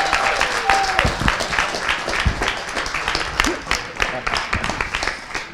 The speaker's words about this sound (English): And so would you put your hands together and welcome Pastor Brett as he comes. Come on, put your hands together.